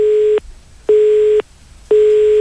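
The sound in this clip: Telephone busy tone on an unanswered call: three loud, steady beeps of a single mid-pitched tone, each about half a second long, separated by even pauses.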